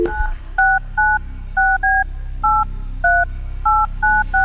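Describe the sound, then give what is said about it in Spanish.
Telephone keypad dialing tones: a steady run of short, evenly spaced two-tone beeps, loud and clear, with no talking over them. “Llámala otra vez. Pero mira, esto hay que volver a llamar. Vamos a llamarla otra vez.”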